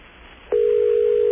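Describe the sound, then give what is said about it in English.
A steady telephone line tone sounds as a call to the Philippines is dialed again on a second line. The single mid-pitched tone holds without a break from about halfway through, after a faint hiss. “I'm going to grab a second line here. Dial it again. See if we get a busy signal.”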